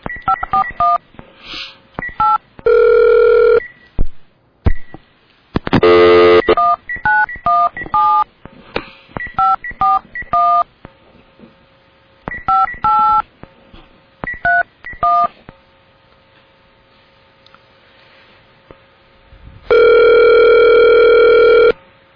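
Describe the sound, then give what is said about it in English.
A phone being dialed to place a call: many short touch-tone beeps in irregular bursts, broken by a few longer, steady, loud tones, with no talk. “I'm going to try to call in to Lori Novak again at the March for Women's Choice”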